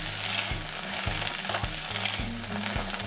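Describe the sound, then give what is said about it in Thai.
Spatula strokes scrape at a steady, regular pace as pounded grilled Spanish mackerel floss is stir-fried dry in a pan without oil, over a continuous soft hiss, with no voices. “แล้วก็เอานำมาโคลกไปผัดค่ะใช้เวลาประมาณ6ชั่วโมงค่ะเพราะว่าจะไม่ใช้น้ำมันเลย”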